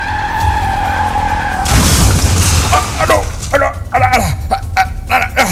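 A car skids and crashes into a traffic light pole: a loud, sustained tyre screech gives way to a harsh burst of noise, followed by a run of short, high squeals.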